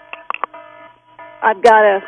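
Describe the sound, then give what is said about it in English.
An electronic alarm beep resembling a fire alarm going off: a few short, high beeps over a steady tone, followed by a person talking. “I've got something going off. You got a beep going on there, huh? Sounds like a fire alarm or something.”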